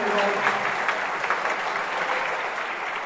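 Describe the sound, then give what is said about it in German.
Applause from a lecture hall audience, a dense, steady wash of clapping that holds at an even loudness for about three seconds without a clear break. “Applaus für euch, ihr seid fantastisch.”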